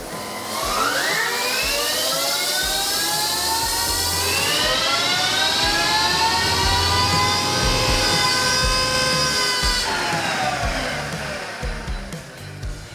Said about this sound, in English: So just strapped it down a little bit tighter because we're getting a bit of wheel spin on the dyno. So try and pull it down a bit more, trying to eliminate that, and we're going to give it another run and see what happens.